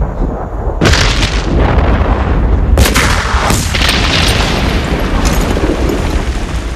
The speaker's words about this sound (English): Explosions tear through the bunker.